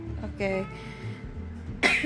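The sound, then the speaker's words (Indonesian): A single short, harsh cough from someone who has a cough bursts out near the end, after a stretch of talk. “sorry banget teman-teman. Kita lagi batuk semua nih.”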